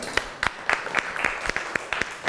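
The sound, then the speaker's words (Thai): Applause for a student in a classroom after feedback on a shaded drawing: a run of many sharp, fairly evenly spaced claps at moderate volume, with no talk. “ปรบมือให้เพื่อนหน่อยครับ”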